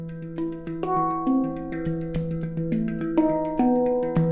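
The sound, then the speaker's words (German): A steel hang drum, or handpan, made to ring by the player's fingers and hands gives a flowing series of soft, mellow notes. Each note has a long sustain that overlaps the next, and the instrument is heard alone. “Da das Blech den Ton auch viel länger hält als ein Trommelfell, klingt ein Hang viel länger nach und auch deutlich weicher.”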